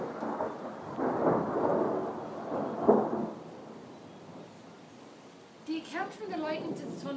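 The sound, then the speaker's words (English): Low rolling thunder rumbles through a heavy rainstorm, swelling over the first few seconds and then fading. A voice begins talking near the end. “Because the lightning just went just maybe 3 seconds before the thunder.”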